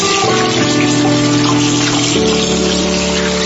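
Water running from a tap for washing hands: a steady, continuous rush that stays even in loudness for the whole clip, with no talk.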